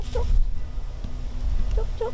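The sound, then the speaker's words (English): Chickens cluck on a family farm near Baralaba, a few soft, brief clucks over a low background rumble, one near the start and a couple toward the end. “Olive Ether is checking her chickens. It's now one of the daily tasks keeping her busy at Myella, her family farm near Baralaba.”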